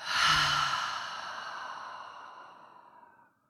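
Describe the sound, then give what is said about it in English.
One long, deep exhale through an open mouth follows a nasal inhale, the breathy rush starting strong and trailing off slowly over a few seconds. “So huge inhale in through the nose. Open mouth, exhale.”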